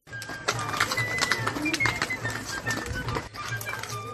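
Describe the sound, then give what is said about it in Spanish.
An ox-drawn cart guided by shepherds hauling wooden doors, a busy, continuous clatter of knocks, creaks and clicks over a low rumble, with scattered brief high tones. “Un carro tirado por bueyes y guiado por pastores se encarga de transportarlas en un viaje que suena así.”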